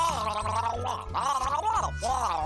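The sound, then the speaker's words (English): Gargling liquid in the throat: a continuous bubbly, voiced gurgle with a wavering, warbling pitch, pulsing in a few uneven surges. “I don't speak gargle. What is going on? Gargling.”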